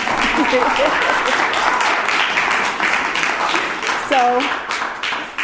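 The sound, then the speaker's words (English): Audience applause for two visiting speakers from Portland at an evening gathering in Seattle: dense, steady clapping fills the whole stretch, with a few whistle-like shouts rising above it. “But I think you should give them a big hand because they're from Portland and they made it here.”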